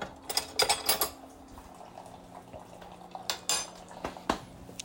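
A spoon and other cutlery clatter among dishes while herbal tea and coffee are being made. Quiet, bright clinks come in quick clusters, with faint stirring and handling sounds between them.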